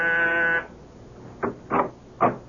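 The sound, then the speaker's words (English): A door buzzer sounds once in a steady, harsh, harmonic-rich tone lasting about half a second, followed by three soft muffled thuds. “And I was just about to leave when my door buzzer sounded.”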